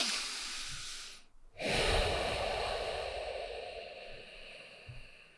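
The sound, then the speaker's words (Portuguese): A deliberately long, slow exhalation in a calming breathing exercise: a faint, airy breath drawn out over several seconds and fading away gradually. “Propositadamente estou a expirar mais tempo.”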